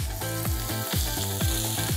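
Food sizzles on a grill over low heat, cooking through after an initial searing crust and before being glazed. The frying is a steady, dense hiss throughout, with a rhythmic tonal pattern underneath.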